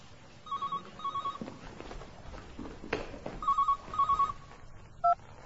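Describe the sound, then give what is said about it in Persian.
A telephone rings in an apartment with faint, trilling electronic bursts in pairs, separated by a pause, then one final brief burst that cuts off short. “امین در آپارتمان رو باز میکنه و بدو بدو میاد گوشی تلفن رو برمیداره.”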